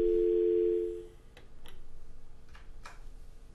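A phone tone after a call was cut off: a steady low tone holds for about a second, then fades away, followed by a few faint clicks over quiet hiss.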